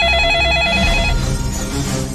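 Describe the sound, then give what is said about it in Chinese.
A telephone rings at a fire department's emergency dispatch centre, giving a rapid, trilling warble over a dense, loud background. The ringing stops about halfway through. “6点多钟，北京市消防局119指挥中心突然接到北京市煤气公司南郊灌瓶厂打来的电话。”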